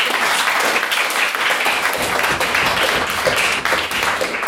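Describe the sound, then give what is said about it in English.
Audience applause for the speakers at the close of a debate evening: dense, even clapping that holds at a steady, loud level throughout without a break. “Well, thank you very much, all the speakers this evening. A big round of applause for everyone.”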